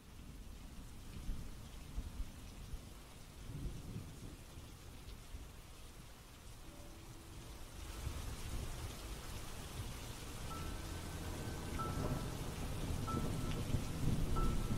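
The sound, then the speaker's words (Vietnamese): Sudden heavy rain with thunder: a steady hiss of rainfall over low rumbling, fairly quiet at first. It grows denser and louder about halfway through and keeps building. “Đi được một lúc, trời đột nhiên ầm ầm đổ mưa.”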